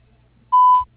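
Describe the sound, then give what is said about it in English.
A single steady, mid-pitched electronic beep from an answering machine, the tone that signals the start of a message. It lasts about a third of a second after a moment of near silence. “Please leave your name, number, and a brief message after the beep, and we will return your call as soon as possible.”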